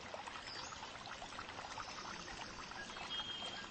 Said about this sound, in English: And we listen to the gurgling of the water